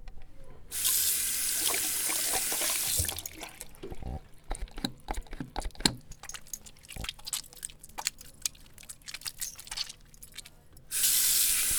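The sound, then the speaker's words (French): Tap water runs at a sink as hands are washed with water and soap before lunch at school. A steady rush stops, then many drips, splashes and small clatters follow, and the tap gushes again briefly at the end. “Avant de manger, on doit obligatoirement se laver les mains avec de l'eau et du savon.”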